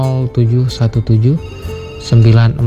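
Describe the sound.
A telephone rings for a caller phoning in to an evening radio request show. The ring is mixed with a loud, melodic voice throughout.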